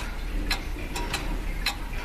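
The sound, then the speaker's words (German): A wooden grandfather clock with a mechanical movement ticks: a few faint, sharp clicks spaced somewhat unevenly over a low, steady background hum. “So eine Standuhr aus Holz gab es auch im Wohnzimmer meiner Großeltern.”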